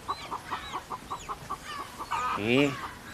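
Chickens cluck in a quick, regular run of short, bright clucks, ending in a louder, drawn-out squawk.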